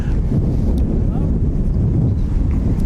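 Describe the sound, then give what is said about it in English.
Strong wind buffets the microphone at a baseball game, a loud, continuous low rumble and roar that holds steady throughout. “This wind is a little brutal, and I hope you can hear through the wind.”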